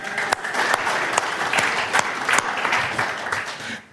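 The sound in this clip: An audience applauds a woman invited up to read a text at a morning service. Brisk clapping from many hands has sharp individual claps standing out, stays lively for a few seconds and fades quickly at the end.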